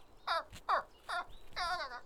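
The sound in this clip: Birds calling, a few loud, short harmonic chirps and squawks with bending pitch, each separated by brief pauses, with no voices over them.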